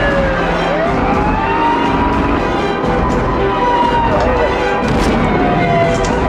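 Police car sirens wail during a chase, their sweeping tones rising and falling above a loud, dense, steady wash of noise.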